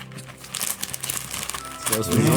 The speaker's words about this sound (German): Ja, da hören die jetzt aber wirklich, dass ich auch was eingepackt habe.